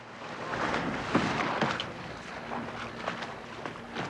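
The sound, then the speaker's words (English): A speedboat racing towards a pontoon gives a steady engine drone mixed with rushing wind and water noise, holding a fairly constant level with a few brief surges. “The speedboat races towards the pontoon.”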